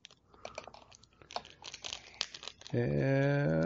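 Trading card celebration packs being torn open, with a run of crinkly wrapper rips and rustles in quick, uneven bursts, followed by a steady sustained tone for the last second.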